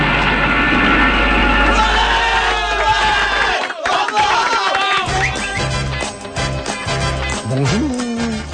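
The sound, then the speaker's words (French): A crowd cheers and exults during an evening event, a loud, continuous roar of many voices with shouts rising out of it from start to finish. “Le public exulte. C'est l'euphorie totale.”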